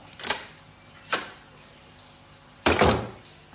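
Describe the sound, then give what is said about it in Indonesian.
A door being closed as someone leaves an office room: two light knocks followed by a heavier, louder thud, over a steady high insect-like chirping tone. “kumatikan komputer, dan mulai berdiri, menutup pintu dan meninggalkan ruanganku.”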